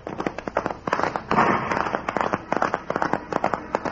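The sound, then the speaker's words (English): Gunshots fired by escaping convicts in a posse standoff: many sharp, irregular cracks in quick succession, loud and clustered, with no pause long enough to separate a clear count. “The horseman, the man who fired the shots, ride away fast.”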